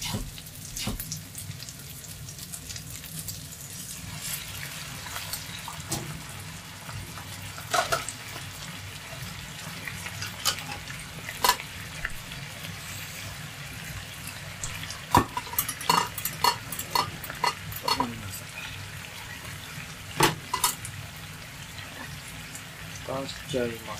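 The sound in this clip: Bacon and onions simmering in a little water in a frying pan give a steady soft bubbling hiss, broken by many scattered clicks and light clatters from a utensil stirring.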